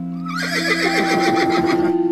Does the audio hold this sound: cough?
no